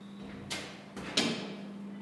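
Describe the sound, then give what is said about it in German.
A large cabinet is opened in a battery testing lab, giving a few faint clicks and soft thuds over a steady low hum. “So, da steht ein großer Schrank und er öffnet ihn.”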